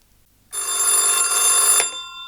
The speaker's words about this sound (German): Einen Tag später wurde er wieder angerufen.